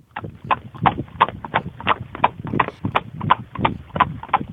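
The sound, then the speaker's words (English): A horse galloping makes many quick hoofbeats that fall in an even, steady rhythm and stay fairly loud throughout. “Every time I hear a horse gallop, I get the feeling that links me to my UAE.”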